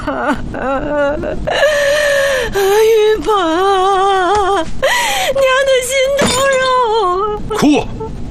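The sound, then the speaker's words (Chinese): A person cries and wails loudly during the New Year holiday, making a continuous wavering, sobbing voice with bending pitch and a sharp sob near the end, with no clear words. “哭什么哭啊，大过年的好什么好。”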